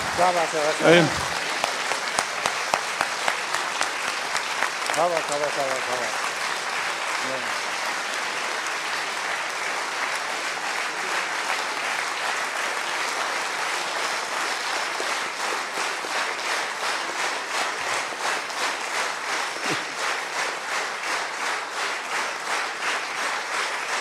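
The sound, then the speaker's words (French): A standing ovation for a Nobel laureate: sustained, loud applause from a large audience that holds for over twenty seconds and takes on a rhythmic pulse. A few voices speak briefly near the start. “je crois que standing ovation, ça c'est tout à fait possible. Vous prie de vous lever parce qu'il mérite.”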